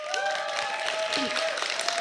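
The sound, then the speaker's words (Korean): Audience applause for a band at a live show: a steady wash of clapping throughout, with a sustained tone running across it. “큰 박수 부탁드릴게요.”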